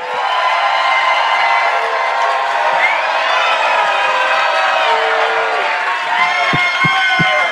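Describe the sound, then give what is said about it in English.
A live audience in Telluride cheers loudly to greet a guest's entrance, with sustained whoops and shouts blending into a bright roar and a few sharp claps standing out near the end. “Ladies and gentlemen, please welcome Mr. Jason Mantzoukas.”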